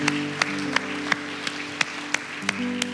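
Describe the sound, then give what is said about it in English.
Audience applause in a church service, with sustained musical tones under a broad wash of clapping and regular sharp accents. “Can we give these five individuals that raised their hand a huge round of applause?”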